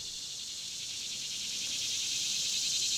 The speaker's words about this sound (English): And it's just really pretty, and you can hear the insects in the background.